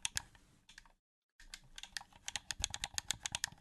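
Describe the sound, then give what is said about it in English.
The D-pad of a DualSense game controller is pressed in many fast, crisp plastic clicks. They are quiet, break off briefly, then resume in a busier run. “Was that really the D-pad making all that noise? That was the D-pad, yeah. Here, ready? I'm sitting here pressing.”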